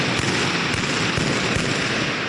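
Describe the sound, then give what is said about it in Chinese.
Gunfire crackles during a simulated counter-terrorism attack drill at a border crossing: many sharp, rapid cracks pile into a dense, loud wash of noise with no pause. “现场出现枪声，同时之间有人投掷汽油弹。”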